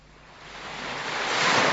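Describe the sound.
Waves on the open sea, rough enough to threaten a small boat, heard as a broad hissing wash that swells steadily louder through the short stretch, with no voices.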